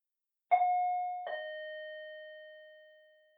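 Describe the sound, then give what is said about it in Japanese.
Doorbell pressed once, sounding a clear two-note chime with the second note lower, both ringing on and slowly fading into silence. “一応ピンポーンしないとダメだね。失礼だね。じゃあ、押すね。”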